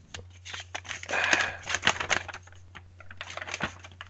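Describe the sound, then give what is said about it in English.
Entry slips rattling inside a small box being shaken, many quick, light clattering bursts, fairly faint, over a steady low hum. “Shake my little tiny Australian box.”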